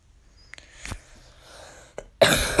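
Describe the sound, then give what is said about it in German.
Coughing after choking on one's own saliva: a few short, sharp coughs with quiet gaps between them, then a louder, longer, rasping burst at the very end. “Sorry. Hab mich kurz an meiner eigenen Spucke verstuckt”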